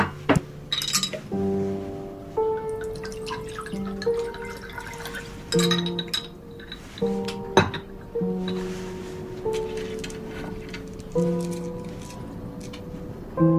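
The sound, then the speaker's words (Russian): A glass of water being poured, heard as many bright glassy clinks and small drips at an uneven pace, each ringing briefly. The sounds stay fairly quiet and no one speaks. “Наливает стакан воды.”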